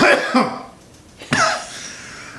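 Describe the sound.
Harsh coughing from someone who choked on something that went down the wrong pipe: a strained, throaty burst at the start, then a sharper second cough that fades into rough breathing.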